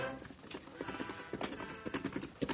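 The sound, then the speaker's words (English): Horse hooves clip-clopping as a rider arrives, a steady run of many hoofbeats in an even trotting rhythm with a muffled, dull tone. “Less than 2 hours after outlaws Lyle Bozeman and Pug Frisbee headed south, the Lone Ranger rode into camp.”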